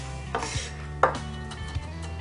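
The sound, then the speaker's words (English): A knife finely dices jalapeno on a cutting board, giving a few sharp, crisp chops spaced unevenly over a steady tonal background. “and we're gonna run our knife right through. Alright, once again, we're going to want that finely diced.”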